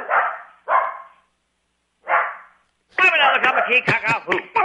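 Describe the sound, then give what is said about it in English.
A dog yowls along in a singing duet: three short, drawn-out howling bursts separated by silences, then a longer, busier stretch of vocalizing with a human voice. “It's been a long time since we had the duet with the only dog with a Hawaiian accent.”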